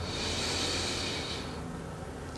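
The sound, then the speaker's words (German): A slow, deep inhalation during guided meditation, a soft, quiet airy hiss lasting about a second and a half before fading away, with no talk. “Wir nehmen einen zweiten tiefen Atemzug und atmen ein”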